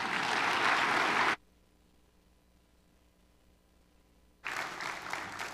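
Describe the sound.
An audience applauding to welcome a speaker to the pulpit: a dense, steady burst of clapping breaks off into near silence, then a second full round of applause starts again.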